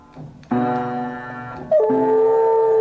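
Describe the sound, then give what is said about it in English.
A dog presses piano keys while howling, with two loud struck onsets that each launch sustained, harmonic piano-like tones blended with a wavering canine wail. “I unsurprisingly found it on YouTube when I put in dog playing piano into the search bar at the top, as I am wont to do.”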